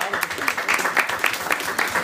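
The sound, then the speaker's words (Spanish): Audience applause at a comic book giveaway event, a dense run of steady clapping that stays loud throughout, with voices faintly mixed in. “¡Un aplauso!”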